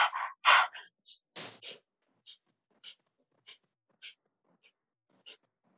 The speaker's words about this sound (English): Same breath, pumping, even inhale, even exhale, but now through the nose.